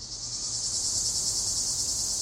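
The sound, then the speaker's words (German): Cicadas chirp outside a house in the late evening, making a dense, continuous, high-pitched buzzing drone. The drone holds steady and fairly faint throughout, with no voices. “Später Abend. Zikaden zirpen vor dem Haus der O'Connells.”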